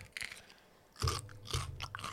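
A pickled cucumber is eaten, with a couple of crisp, loud crunches followed by quieter chewing.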